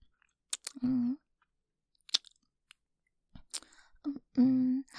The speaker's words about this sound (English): Let me just scoop up a little with my finger and... yummy. It almost tastes like candy.